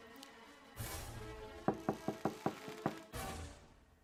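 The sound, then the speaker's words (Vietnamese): Sharp knocks on a door at night, six in a quick run with a slight gap before the last, set between bursts of rushing noise. “Tiếng gõ cửa vang lên trong bóng đêm làm cả ba tên giật mình.”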